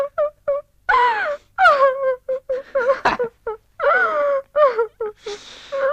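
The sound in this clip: A person cries in many broken, sobbing wails and moans whose wavering pitch often slides downward, with short breathy catches between the loud bursts.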